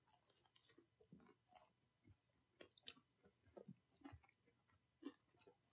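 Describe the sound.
Crunchy chewing of thickly breaded chicken nuggets, with many uneven bites and moist squishes in an irregular rhythm. The chewing is faint and close, and no one talks.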